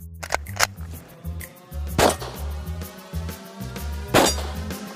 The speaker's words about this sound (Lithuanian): Trys. Trys varpeliai.